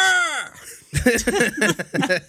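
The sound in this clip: A Wilhelm scream effect from a video game: a loud, high scream whose pitch falls away within half a second, followed by people talking and laughing.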